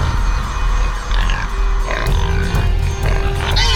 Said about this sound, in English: Only minutes have passed, but suddenly, a dozen pigs tumble from her home.